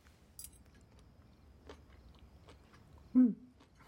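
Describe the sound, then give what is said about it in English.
Soft chewing and biting as someone eats a bite of food with chopsticks, a few faint scattered clicks and mouth sounds, quiet overall, then a short louder burst near the end. “May picks up a pair of chopsticks and eats a bite of food.”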